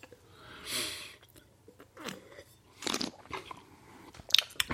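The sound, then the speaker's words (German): Loud, wet chewing and lip smacking while eating, heard alone as irregular crunchy bites and smacks separated by short pauses, with a few louder bursts toward the end. “Ich habe lange nicht so viel geschmatzt, habe ich das Gefühl. Aber darum geht's hier ja.”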